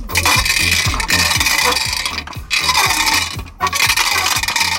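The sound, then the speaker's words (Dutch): A rickety, falling-apart bingo ball drum holding five numbered balls is turned, giving loud, steady clattering and scraping in regular rhythmic strokes, broken by two brief pauses. “Hij klinkt wat krakkemikkig en valt ook uit elkaar ondertussen. Maar... dat klopt, maar we hebben wel een balletje gerold.”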